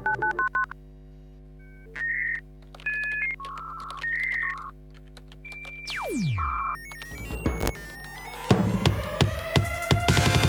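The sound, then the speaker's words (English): Telephone keypad dialing tones for a service number: a string of steady electronic beeps of differing pitch sounds one after another, then a falling tonal sweep and harsh, buzzy electronic noise that grows louder toward the end. “Please dial star 611 for assistance.”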